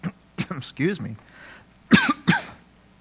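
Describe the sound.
A speaker coughs after drinking from a bottle of water: a few short, harsh coughs and throat-clearing bursts, broken up by speech.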